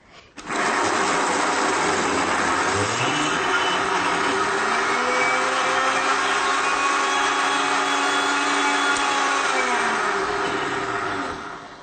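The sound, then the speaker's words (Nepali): An electric grinder dry-grinding a mixture: the motor starts abruptly and whirs loudly and steadily for over ten seconds, its pitch dipping slightly after startup, settling, then winding down just before it stops. “यो सबै मिलाइसकेपछि यस्तो हुन्छ अब यसलाई हामी चाहिँ grind गरौँ होइन हजुर सुक्खै पिस्ने सुक्खै पिस्ने सुक्खै पिस्ने”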